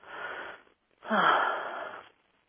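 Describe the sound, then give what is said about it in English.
A deep breath taken during a guided meditation, heard as two breathy, airy pulses: a shorter, softer one, a brief silence, then a longer and louder one that trails off, with no talking. “Take a nice deep breath.”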